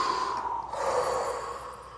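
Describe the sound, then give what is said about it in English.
A deep breath exhaled through the mouth during a relaxation exercise for clearing anxiety and stress: one long, steady, breathy rush of air that fades slightly toward the end, heard alone. “inhale a little bit more, then hold it for a second and then breathe out of your mouth and just relax the body.”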